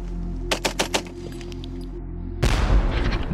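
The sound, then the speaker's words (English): Rapid machine-gun fire in a shooting test against a block: a quick burst of four sharp cracks over a low steady hum, then a dense roaring rumble of noise that carries on to the end. “we've been looking at a machine gun that can fire hundreds of rounds a minute”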